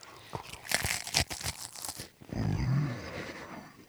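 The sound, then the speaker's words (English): Cheese and crackers are crunched and chewed in a quiet run of dry, crisp bites that crackle one after another, then give way to a duller, lower rumble. “There's a little ASMR for you. Cheese and crackers.”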